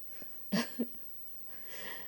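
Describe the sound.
A single quiet sneeze: a sharp voiced burst with a brief second catch right after it, then soft breathy noise trailing off.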